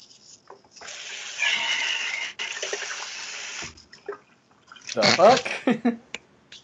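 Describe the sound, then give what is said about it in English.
Water runs and splashes while a beer can is rinsed out. A stretch of steady flowing water gives way to a burst of louder sloshing, with a voice briefly heard. “Rinsing out my beer can. I recycle.”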